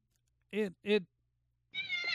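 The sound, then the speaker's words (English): A pet cat sitting on a chair gives two short meows in quick succession. A person starts talking after a pause. “it is the cat on the recording there for everybody.”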